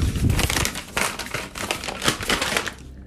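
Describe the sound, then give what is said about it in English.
An envelope is opened with paper crinkling and tearing, a dense run of crackly rustles broken by brief pauses. “Let me open this envelope.”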